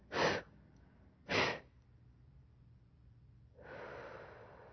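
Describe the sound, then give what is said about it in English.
Breathing during a guided meditation session: two short, sharp breaths, then after a pause a longer and softer exhale, all faint and with no other sound. “A little breath.”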